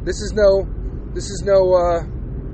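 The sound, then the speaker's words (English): Steady low road rumble from a car driving through a snow blizzard, a continuous drone running under someone talking throughout. “This is pre-recorded, but I am driving in a fucking blizzard.”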